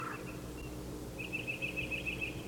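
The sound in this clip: A titmouse calls in a faint, rapid string of thin, high notes lasting about a second, heard over a low, steady background hum.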